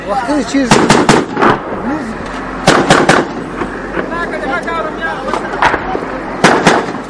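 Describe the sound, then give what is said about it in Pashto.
Gunfire crackles in a firefight between police and militants near a main bazaar: sharp, loud shots fire in irregular clusters, with many cracks heard beneath a voice speaking. “د عمومي بازار لویدیز لور ته په 200 متر کې د جنگ لومړی کرښه کې د پولیسو او وسلوال ترمنځ ډزې روانې دي”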